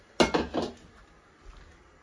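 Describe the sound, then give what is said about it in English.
A wire whisk and a big bowl being picked up in a kitchen: a quick burst of clinking knocks at the start, then a faint thud after a short pause. “I want you to grab a wire whisk and a big bowl.”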